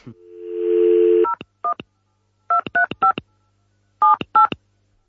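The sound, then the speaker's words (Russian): A telephone number is dialed to call a port: a steady tone gives way to a series of short touch-tone beeps in irregular clusters, clear and alone with no talk. “Давайте позвоним в порт.”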